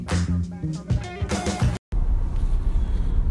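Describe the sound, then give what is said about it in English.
A car driving, heard from inside the vehicle: a steady low rumble of road and engine noise that follows a few seconds of louder music, which cuts off abruptly. “back in the vehicle heading home from a weekend of baseball”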